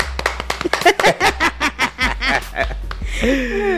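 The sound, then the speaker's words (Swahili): Hands clap amid rhythmic bursts of laughter, the sharp claps and laughing pulses running many times in quick succession before a voice takes over at the end. “Makofi.”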